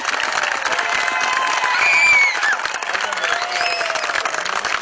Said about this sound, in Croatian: Ajmo, molim vas da vas čujem jedan ogromni pljesak za vaš stadion i za vaš Vareš. Možete vi to puno jače, idemo ponovo.